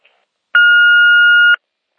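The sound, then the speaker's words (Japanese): An answering-machine beep: one long, steady, mid-high electronic tone that holds evenly for about a second, then cuts off cleanly, heard alone with nothing else around it. “ただいま、ポッドキャストトーク中で電話に出ることができません。ご用のある方は、ピーッとなりましたら、お名前とご用件を勝手にどうぞ。”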